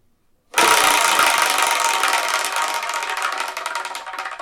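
A prize wheel spins with a dense, rapid clicking rattle that starts abruptly and runs loud and steady on its own, the clicks thinning slightly toward the end.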